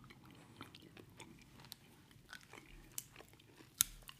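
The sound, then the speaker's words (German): Jaw cracking while someone chews a hard, fish-smelling dried snack: a couple of sharp, faint clicks over quiet, steady chewing. “die ersten beiden Knacks kamen aus meinem Kiefer.”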